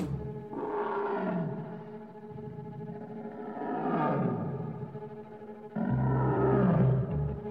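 Deep, drawn-out roaring of a tiger, Shere Khan from The Jungle Book, comes in three long swelling waves with a rough, growling texture and an echoing, processed quality, the last one joined by a heavy low rumble.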